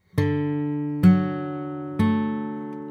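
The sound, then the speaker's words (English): The three notes of a major chord are plucked one at a time on guitar, about a second apart. Each note rings clearly and decays before the next one sounds. “So now that we've heard them on the guitar, let's sing these three notes”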